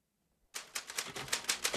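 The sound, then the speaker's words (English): Typewriter keys struck in a quick, uneven run after a half-second of silence, crisp mechanical clacks on a faulty machine whose N key doesn't print. “Paul's fingers dance over the typewriter, and even though the letter N doesn't print, he writes”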